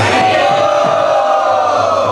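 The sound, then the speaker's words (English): A loud crowd shout of "Hari Bol" welcoming a swami at a seminar in Sydney, a sustained, massed roar of many voices held at full volume throughout. “Let's welcome His Holiness Srila Bhakti Charu Swami Maharaj with a big Hari Bol.”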